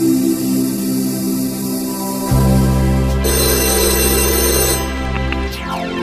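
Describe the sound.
A telephone rings before an answering machine picks up, giving continuous electronic ringing tones whose character shifts partway through.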